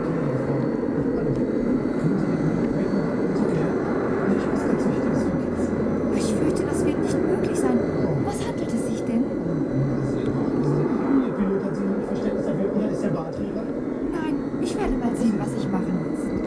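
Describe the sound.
Airplane engines roar as the plane takes off from the runway, a loud, steady, continuous rumble with faint indistinct voices mixed in.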